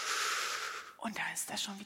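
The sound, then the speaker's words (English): A soft, hissing breath drawn in during a guided breathing exercise, lasting about a second, followed by fainter breathy sounds. “We breathe in.”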